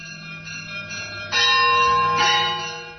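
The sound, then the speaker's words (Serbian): Monastery church bells ringing: two loud, clear strikes with long sustained tones that hang and slowly fade over a quieter ringing background. “Slušate zvona Hilandarska”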